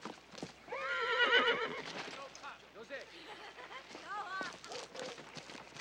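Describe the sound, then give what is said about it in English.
A horse whinnies loudly in rising and falling cries while hooves clip-clop beneath, fitting a horse galloping into a camp; further shorter neighs follow near the end. “The next day, Wolf gallops into Geronimo's camp with Beth behind him.”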